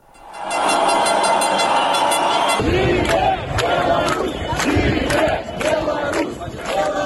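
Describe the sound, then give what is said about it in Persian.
A street demonstration in Minsk, Belarus, protesting presidential election results: a large crowd roars and shouts continuously and loudly, shifting partway through into rhythmic bursts of chanting and cheering that rise and fall without a break. “آنا رایسکایه گزارش می‌دهد با این توضیح که گزارش وی با صدای تظاهرات شروع می شود.”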